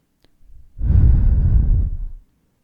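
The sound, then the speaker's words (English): A single deep human breath: a soft inhale, then a long, loud, breathy exhale like a sigh. “So I just want you to close your eyes for a second. And I want you to take one big deep breath in and out.”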